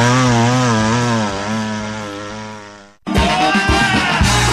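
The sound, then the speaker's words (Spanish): A chainsaw runs loud and alone, its buzzing engine whine wavering in pitch, then cuts out briefly before roaring back harsher and rougher. “Agrifor, el que más sabe de motosierras en Talca.”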